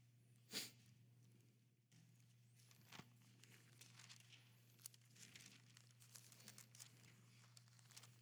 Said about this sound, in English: I love hearing the turning pages of Scripture.